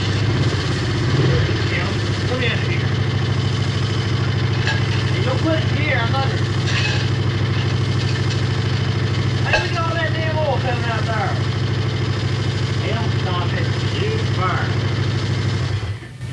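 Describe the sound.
An old car engine with freshly cleaned and gapped points idles with a steady low rumble that runs through the whole stretch, while people talk over it.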